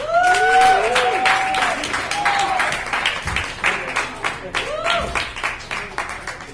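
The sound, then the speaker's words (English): Audience applause for a comedian at a stand-up show, many hands blending into a continuous roar, with shouted whoops and cheers rising above it early on and again near the end. “Could you please give it up? You've been a great audience. Could you please give it up for Chris Browder?”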